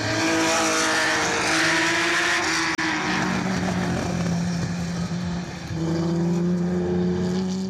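A racing car at speed on the Montlhéry circuit: a loud, sustained engine roar with strong harmonic whine that dips lower mid-clip and climbs again near the end, alone without voices.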